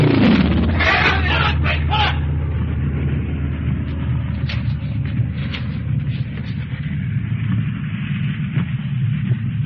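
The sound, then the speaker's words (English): A military plane's engine, running low on fuel, drones loudly and steadily with a deep hum and a rough, uneven crackle throughout. “Listen to that. His gas must be about done.”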